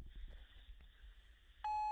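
A voicemail prompt beep before a message is left: a single loud, steady electronic tone that holds one pitch to the end. It follows a stretch of faint low background noise.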